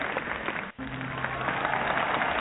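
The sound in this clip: A studio audience applauds, a dense and even wash of clapping that cuts out briefly near the start, then carries on steadily at a moderate level.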